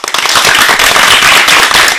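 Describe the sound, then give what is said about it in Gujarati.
Dense, thunderous clapping applause for a children's performance programme, a steady wall of overlapping sharp claps that holds loud and even for the whole two seconds. “આ તાળીઓના ગડગડાટને વધાવવા માટે તૈયાર છો ને?”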